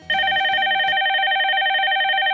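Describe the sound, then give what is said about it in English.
A telephone rings with a loud, steady electronic trill. It starts abruptly after a brief low murmur and continues unbroken to the end. “Oh shit, someone's calling.”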